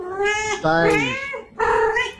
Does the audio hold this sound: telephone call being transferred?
no